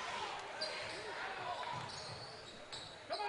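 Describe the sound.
A basketball is dribbled down the court during a Fort Payne game, its bounces sitting under a steady crowd din, with a few brief high squeaks rising near the end.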